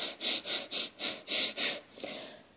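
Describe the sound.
Breath-of-fire breathing: the belly fills with air and the exhales are forced out. Six quick, forceful, hissing breaths come in a steady rhythm, followed by a softer, longer breath. All of it is quiet.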